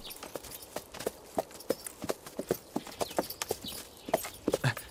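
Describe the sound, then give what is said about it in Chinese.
Horses' hooves clip-clop as the mounts are led out of the stable, with many steady, sharp hoof strikes in an uneven walking rhythm throughout. “那个把我爹的坐骑牵过来。 是， 在这个厩里。 哎， 牵过来。 把我那小红也牵过去。”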